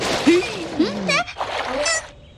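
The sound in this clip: Water splashing onto a toy bear in a children's cartoon: a noisy spray of splashes running under squeaky, honking cartoon voices and sliding vocal sounds.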